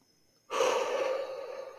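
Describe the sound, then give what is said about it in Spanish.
A deep breath drawn in, starting abruptly and continuing as a steady airy rush for over a second, with no voices. “Respira hondo, manténlo dentro 5 segundos.”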